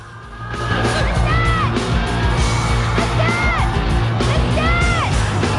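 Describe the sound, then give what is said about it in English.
Jesse shouts out over a roaring concert crowd as vampire assassins advance toward the stage. Three loud, wavering yells rise and fall above the constant din of the audience. “watches anxiously as the assassins advance towards the stage. Jesse calls out.”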